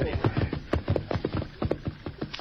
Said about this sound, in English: Here's a creek, Dan. We better stop and water the horses.